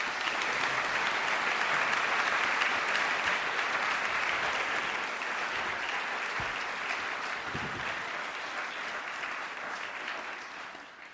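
Audience applause welcoming the President of the European Parliament to a lecture at the London School of Economics, a dense, steady wash of clapping that goes on for about eleven seconds and fades slightly at the end.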